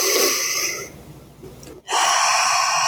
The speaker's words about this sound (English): what I'd like you to do is to take one nice big deep breath into those ribs. Nice big breath in there.